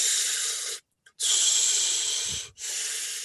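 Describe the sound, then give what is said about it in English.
Rhythmic deep breathing demonstrated as a technique for staying warm in icy conditions: three long, forceful, hissing breaths, the first two separated by a short silence and the last two by only a brief dip, with no talk. “And he stays warm simply by doing this breathing. And it's very simple. It's literally like,”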